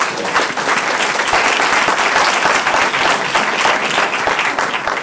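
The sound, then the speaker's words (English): An audience applauds the panelists after a panel discussion. Dense, steady clapping fills the whole stretch at an even, loud level. “So please give a hand for our wonderful panelists.”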